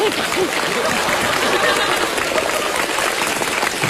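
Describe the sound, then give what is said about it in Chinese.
Audience applause greets a performer stepping onto a stage in a comedy sketch. Dense, steady clapping stays loud and continuous throughout, with no clear pauses. “上台了，激动了，应该响起掌声了。”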